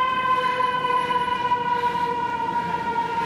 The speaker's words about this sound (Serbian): Dan za sirene. Gomile sirene.